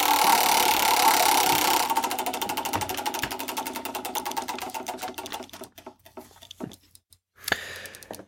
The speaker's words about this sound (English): let's get our roulette wheel